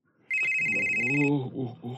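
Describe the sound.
A telephone rings with one sustained, bright electronic ring tone lasting about a second, then a voice speaks briefly.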